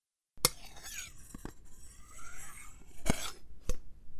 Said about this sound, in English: The clanking of rods will sound something like this.